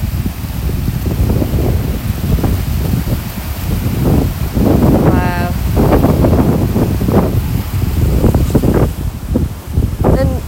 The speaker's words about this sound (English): I'm just walking up to a really narrow bit of river now. Hopefully you can hear that.